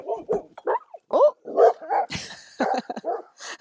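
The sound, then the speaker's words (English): Guard dogs bark loudly in a quick, irregular run of many barks and yips, some sharp and high-pitched, with a few overlapping. “the guard dogs saw something move. Keeping a watch.”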